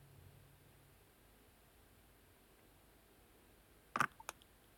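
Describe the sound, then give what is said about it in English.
A computer mouse clicks on a website, a short tight cluster of a few sharp clicks after several seconds of near silence. “I just clicked on the website for this, and it looks like they have three different,”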